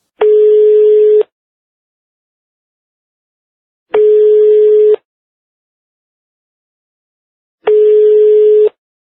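A telephone ringing on the line as a call is placed: three long, steady ringback tones at an even interval, each about a second long with silence between, and no voices.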